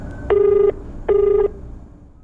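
Ringback tone of an outgoing telephone call: two steady, mid-pitched electronic rings, each about half a second long, separated by a short pause, heard alone over faint background hiss.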